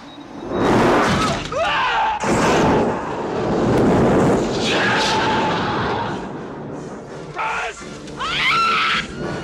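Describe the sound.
Gunfire and heavy explosive bursts in a military firefight, loud and rumbling in repeated waves, with shouting and screaming voices mixed through the din.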